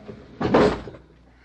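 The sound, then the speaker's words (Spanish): A drawer being shut, the drawer that had held carving tools. It makes a single short sliding thud of under half a second, moderately loud, with faint room tone around it and no voices. “Deja eso ahí. Cierra ese cajón.”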